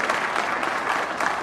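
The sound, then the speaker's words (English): Hundreds of Republican delegates, activists and officials at a North Carolina political gathering cheer and applaud, a dense, steady wash of clapping and cheering over a brief moment. “that is the sound of hundreds of Republican delegates, activists, and officials in sheer delight.”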